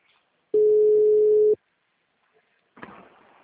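An outgoing telephone call gives a single steady ringback tone lasting about a second, followed by silence and then a short burst of faint noise.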